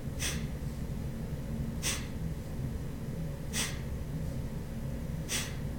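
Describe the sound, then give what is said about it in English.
Four forceful exhales snapped out from the navel in a steady rhythm. Each is a short, hissy breath burst followed by a quiet pause, over a low, constant background hum. “the breath is going to be a snap out as you breathe out. And then you just let your belly go to let the breath come in. And you do about one a second.”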